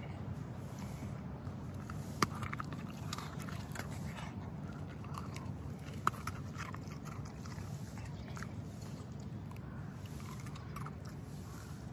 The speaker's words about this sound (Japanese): ビスケット割りますはい食べます美味しそうに食べるね